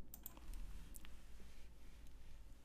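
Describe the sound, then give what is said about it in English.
Faint typing on a computer keyboard as a name is keyed into a search, with a few light, scattered clicks over a low steady hum and no talking. “I'm going to just type in Mack and hope that Khalil pops up.”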